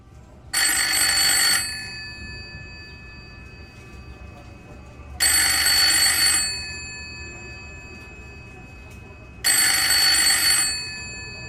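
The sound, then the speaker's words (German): A telephone rings late in the evening in an apartment: three bright, bell-like bursts of about a second each, evenly spaced several seconds apart with quiet between them and no voices. “Da läutet am späten Abend des 16. Oktober das Telefon.”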